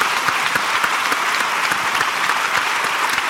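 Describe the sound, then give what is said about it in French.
An audience applauds with dense, even clapping that stays loud and steady from start to finish, with no voices standing out. “Eh bien, on peut l'applaudir.”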